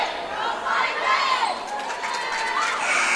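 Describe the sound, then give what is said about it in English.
Loud cheering from the Galesburg-Augusta cheer team at a high school boys basketball game against Saugatuck: shouted chants and excited voices rise and fall over a busy background of crowd noise. “That noise you hear is the Galesburg-Augusta cheer team. We mentioned it to you that they bring your cheer team wherever they go.”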